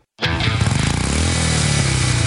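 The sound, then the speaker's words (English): Harley-Davidson motorcycle engine rumbling: a steady, deep throbbing drone with a strong low pulse that starts abruptly after a brief silence and holds at a constant loud level, with no talking. “rumble all summer long in one of four brand new Harley-Davidson motorcycles.”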